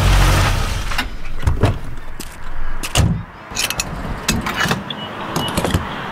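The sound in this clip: A fuel pump fills a car's gas tank: several sharp mechanical clicks and clunks sound at irregular intervals over a steady low rumble, with no voices.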